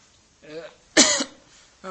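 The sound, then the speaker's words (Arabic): Coughing from a lecturer with a cough during a lesson: a few short rough bursts, the middle one loudest and harshest, with quiet in between. “ظهرت الآن، عندي سعلة وربما أخذ يعني فترة وأنا أسعل في الدرس”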